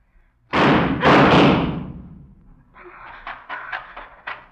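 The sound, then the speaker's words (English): Gunfire in a radio drama, where a man is shot. A few loud, booming bangs follow one another quickly and trail off, and a voice is then heard over softer knocking sounds. “Joe, you shot him.”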